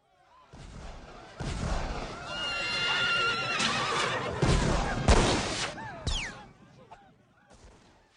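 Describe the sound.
Horses neigh and whinny amid a battle of pistol fire as enemy troops close on a riverbank, loud, shrill cries rising over dense, noisy clatter and sharp bursts of gunfire that fill the scene.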